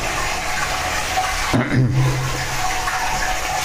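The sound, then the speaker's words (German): A toilet flushes: a steady background hiss gives way midway to a sudden loud rush of water, followed by a gurgling, draining swirl that settles into a softer refilling trickle. “Ja, wir spülen nochmal.”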